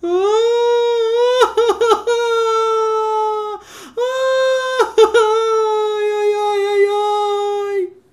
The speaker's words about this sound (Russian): Кто-то плачет. Она стала смотреть, кто плачет, что случилось. Большой, какой-то большой мальчик плачет.